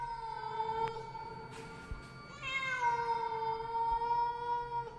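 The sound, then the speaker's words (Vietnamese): A stray cat in the bushes meows in a long, drawn-out, wailing cry. The tone is steady and fairly loud, shifts slightly in pitch partway through, and runs almost the whole time with no voices. “bất giác có tiếng con mèo kêu lên, nghe rát cả ruột”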